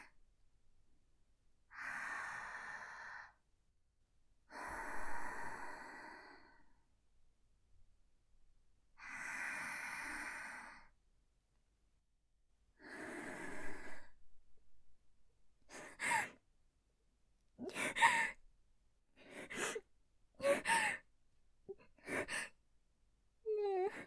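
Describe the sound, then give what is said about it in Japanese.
A woman takes deep breaths to calm herself: four slow, long, airy breaths with pauses between, followed by many quicker, shorter breaths, all faint with no talk. “ちょっと待って。一旦深呼吸してみる。”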